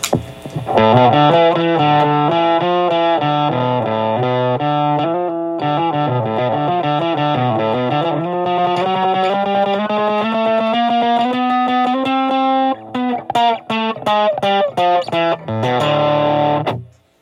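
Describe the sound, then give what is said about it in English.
Overdriven electric guitar through the Tech21 Fly Rig 5 SansAmp amp emulation, with loud, gritty, mid-heavy strummed chords that move up in pitch and end in a quick choppy run before cutting off. “Moving on to what I believe to be the most important part of the Fly Rig 5, the lovely, lovely Sans Amp.”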